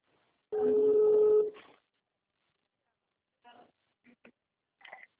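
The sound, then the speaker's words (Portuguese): A telephone call being placed: a single steady electronic tone holds for about a second, then after a pause come a few short, faint bursts of sound. “Estou ligando para a Marcela.”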